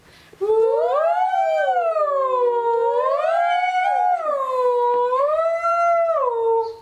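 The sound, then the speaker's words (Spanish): An ambulance siren wails loud and continuous, its tone sweeping slowly up and down in several long, smooth cycles. “Llegó la ambulancia.”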